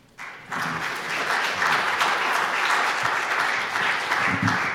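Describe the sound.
Audience applause welcomes a guest musician at a House of Mercy service. It begins after a brief quiet moment and then holds as steady, even clapping through to the end.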